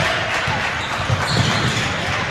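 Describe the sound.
Basketball dribbled during a game, a few dull low thuds of the ball beneath a dense, steady wash of crowd noise.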